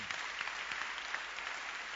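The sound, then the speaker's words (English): A church audience claps together in dense, steady applause. The sound is faint and even throughout, with no voices. “clap for the Bible, just clap.”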